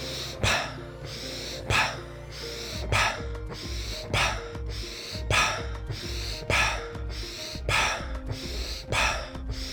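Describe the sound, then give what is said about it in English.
Quick, deep breaths taken during a breathing exercise: a rapid series of sharp, gasping inhales and exhales repeating at a steady rhythm, fairly loud, with no talking. “I'm gonna invite you to do 10 deep breaths with me, quickly. I'm gonna make this popping sound at the end, okay?”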